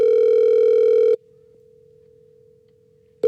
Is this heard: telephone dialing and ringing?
yes